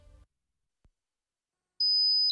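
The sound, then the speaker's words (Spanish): A high-pitched beep imitates ringing in the ears in a sleep-aid advert. A faint low rumble gives way to silence, then one thin, steady, piercing tone holds to the end. “Es molesto, ¿verdad? ¿Te imaginas oírlo cada noche? Sonofin te puede ayudar porque Sonofin con ginkgo biloba y melatonina reduce los pitidos”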